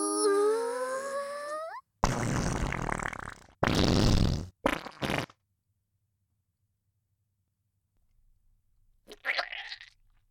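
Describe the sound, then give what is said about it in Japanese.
A girl's farts: a few loud, raspy blasts in quick succession, the first long and the rest shorter, then silence before one fainter, brief puff. “ねえ、おならでお腹いっぱいになれた？”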